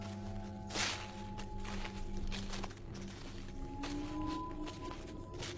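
Footsteps walking at night along a dirt path through overgrown grass: a few soft, irregular steps over a steady low hum.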